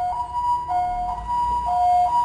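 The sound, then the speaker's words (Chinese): An ambulance siren on a main road, a two-tone wail that alternates between a higher and a lower pitch in a steady repeating pattern. “有时候会因为救护车我们稍微等一下”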